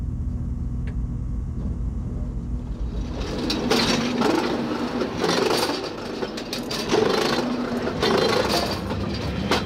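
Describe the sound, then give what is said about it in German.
A Golden Pass train slows at Meiringen as it switches to rack-railway drive and threads onto the rack. Its steady low rumble thickens into a louder rolling clatter and grinding after the first few seconds. “In Meiringen sind wir nun wieder in den Golden Pass eingestiegen, der hier recht langsam wird, denn der Lokführer muss auf Zahnradantrieb umstellen und vorsichtig in die Zahnstange einfädeln.”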